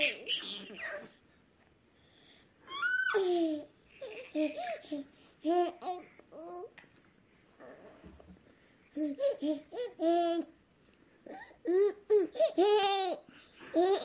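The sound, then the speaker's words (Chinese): Two small children babble and giggle in short, high, lively bursts separated by quiet pauses. “看到吗？可爱吗？两个孩子在喃喃自语。”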